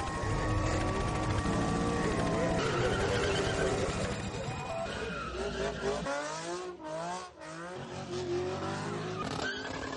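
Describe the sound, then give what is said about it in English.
Tyres screeching and engines revving from street racing and stunt driving: long, loud squeals with wavering, swooping pitch, briefly dipping around the seventh second before surging again. “Street racing, stunt driving, and roadway takeovers have become increasingly common in Florida.”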